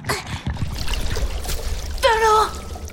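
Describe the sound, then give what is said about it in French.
Seawater trickles and splashes into a mussel's shell: a steady watery gurgle over a low rumble, with splashy bursts near the start and a short voice toward the end. “De l'eau De l'eau rentre dans ma coquille. De la bonne eau de mer.”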